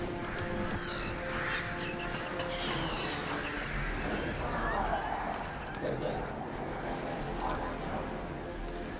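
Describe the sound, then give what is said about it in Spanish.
A flock of black birds circles and caws, with many harsh calls layered over a dense, steady rushing background that continues throughout. “los pajarracos que revolotean frente a él trazando círculos en el aire”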